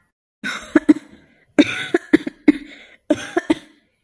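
Coughing fits from a man in three separate bursts, each a cluster of several sharp, harsh coughs, loud and alone without talk.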